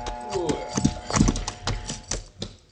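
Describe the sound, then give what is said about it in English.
Horse hooves clip-clopping on a trail beside a sandstone bluff as the rider reins in. A run of uneven hoof knocks and thuds, some closely doubled, slows and loosens toward the end. “stopped by a sandstone bluff to wait for the man riding down the trail toward me. When he drew alongside, he reined in.”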